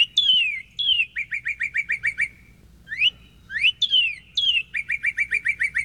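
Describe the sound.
Northern cardinal main song recorded in upstate New York: two phrases, each opening with loud down-slurred whistles and then a rapid run of short, evenly spaced whistled notes, with a quiet pause between them and no voices.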